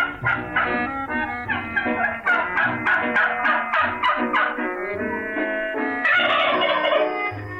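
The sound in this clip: A turkey gobbles in rapid rattling bursts, a loud chain of quick throaty calls. A brief pause follows, then a final, more intense gobble, with no voices heard.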